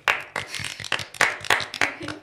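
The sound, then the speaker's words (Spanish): Applause for a singing studio operator, sparse clapping from a few hands with sharp separate claps in a fairly steady, slightly uneven rhythm. “Aplauso.”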